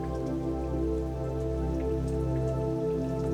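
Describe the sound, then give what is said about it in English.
Steady rain falling as a dense, even patter of raindrops, with a sustained tonal drone running beneath it throughout. “As you feel the raindrops on your body,”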